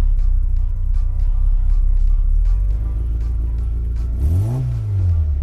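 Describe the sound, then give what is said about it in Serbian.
The engine of a Zastava 750 (Fića), a small retro car, idles in a low, steady, throbbing rumble heard from inside the car, then revs once near the end, rising and falling in pitch. “Evo, ulazimo upravo u Fiću. Evo samo, da pomerimo, odlično. Interijer je zaista retro. Evo, upravo čujemo motor.”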